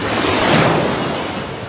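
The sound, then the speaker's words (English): Gentle ocean waves wash in as a broad, steady rush of surf that swells slightly and then eases off, with no voices. “drifted off to sleep as a gentle wave carried him out to sea”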